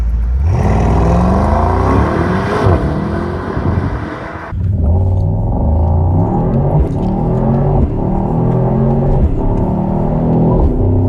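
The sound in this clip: A powerful, expensive car's engine revs loudly and continuously, its pitch climbing in sweeps, dipping briefly midway, then roaring up again as it is driven hard in manual mode.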